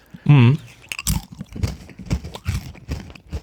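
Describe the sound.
Spelt crackers are crunched and chewed in many crisp, irregular bites. The sharp crunches repeat in a loose rhythm throughout and are fairly loud.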